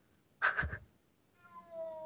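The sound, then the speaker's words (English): A house cat meows once: a short, fairly soft call that stands out alone against near silence. “Oh, and that's my cat.”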